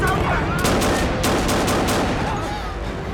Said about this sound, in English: He pulls a gun from his pocket and shoots them.